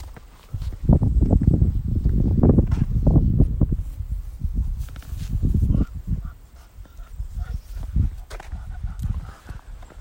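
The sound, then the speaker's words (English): Footsteps on a walk around the neighborhood: uneven, thudding steps with a low rumble, continuing throughout and loud. “So we're on a walk here around the neighborhood.”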